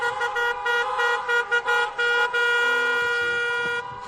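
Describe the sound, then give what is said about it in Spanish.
Car horns honk during a driving schools' slow-march protest in Cádiz province. Loud, sustained horn tones overlap almost continuously with a few brief dips, and traffic noise sits underneath. “Las asociaciones provinciales de autoescuelas Jerez, Campo de Gibraltar o Bahía de Cádiz han convocado para hoy esa marcha lenta sobre las 8:30 de la mañana”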